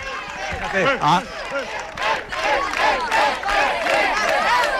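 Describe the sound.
A large crowd of basketball fans waits for their team to appear, with many overlapping shouting and cheering voices and a little clapping. The noise stays loud and continuous, surging in waves.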